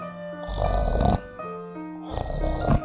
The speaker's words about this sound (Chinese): 大老鼠，大老鼠，你在打呼噜。